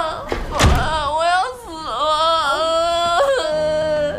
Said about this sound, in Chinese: 把门关上。